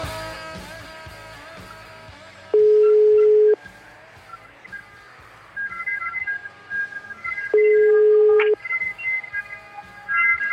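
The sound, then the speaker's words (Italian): Telephone ringing on a call line in Italy: two long, steady single-pitch ring tones, each lasting about a second and spaced several seconds apart, sound loud over a busy musical backdrop. “squilla il telefono della Zanzara”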